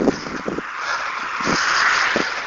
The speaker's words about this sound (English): and there's lots of traffic.